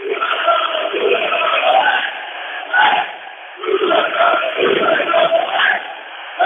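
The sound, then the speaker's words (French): Workers at a chocolate factory sing together to celebrate restarting production. The massed chorus of voices is loud and continuous, briefly dipping and then surging back. “C'est les salariés de l'usine, je me suis mis un peu à l'écart, ce sont les salariés de l'usine qui chantent, qui se félicitent d'avoir fait redémarrer les productions”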